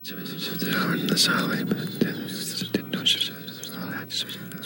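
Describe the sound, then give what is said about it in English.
People whispering nearby, soft breathy hushed voices murmuring continuously with small sibilant bursts and no clear words. “The sound of people whispering nearby.”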